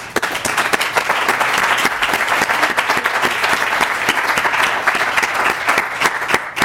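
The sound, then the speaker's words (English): Steady, dense applause from the audience at a University of Minnesota Alumni Association regional candidate forum, honouring the candidates. The clapping stays loud and even throughout, with no voices over it. “And let's give the candidates a hand.”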